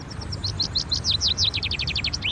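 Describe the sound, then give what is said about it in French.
A common chaffinch sings a rapid series of bright, high notes that run for about two seconds and end in a quick flourish, over a low rumbling background. “Pinson ordinaire, Fringilla celeps.”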